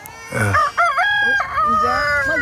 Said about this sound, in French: Fais taire ce coq.